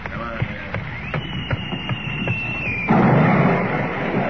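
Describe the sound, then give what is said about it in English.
An artillery shell is fired across a ship's bow: a long steady high whistle over scattered sharp pops, ending in a loud, broad, rushing burst. “now do you believe me? That was a shell fired across your bow.”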